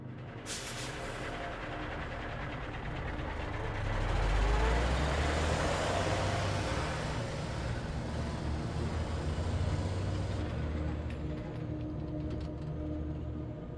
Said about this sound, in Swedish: Chauffören muttrade någonting för sig själv och la i växeln igen. Det började mullra och vi fortsatte längs den ensamma, tomma skogsvägen i norr.